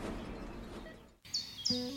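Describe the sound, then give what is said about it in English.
Birds sing on a sunny day: a few short, high, faint chirps and tweets come through in the second half, after a soft stretch of hiss. “The sun's shining, birds are singing, and all feels right in the world.”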